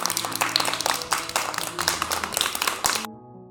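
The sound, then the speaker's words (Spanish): Children taking part in a school programme give themselves a round of applause: quick, uneven hand claps from a small group that continue steadily, then cut off sharply near the end. “Así que, ¿qué os parece si nos damos un aplauso a nosotros?”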